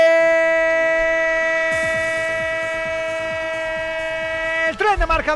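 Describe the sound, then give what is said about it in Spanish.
A train sound effect in a sports radio station jingle: a sustained, harmonically rich train horn tone holds steady while rhythmic clacking of wheels on rails runs beneath it, then a voice starts talking. “Marcador, el tren de Radio Marca, el tren que te sigue contando todo lo que ocurre con el deporte en vivo”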